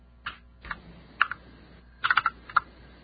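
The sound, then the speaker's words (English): Computer keyboard typing, heard as a few short bursts of light clicking keystrokes separated by pauses, with a denser flurry of taps near the end. The typing is moderately quiet and no voices are heard. “No, I haven't Googled the number yet. That's right. Everyone can hear me type, no doubt.”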